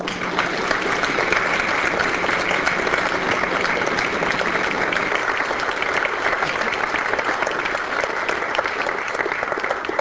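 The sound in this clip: A large crowd gives sustained applause to welcome a faculty research lecturer, with dense, steady clapping that runs unbroken from start to finish.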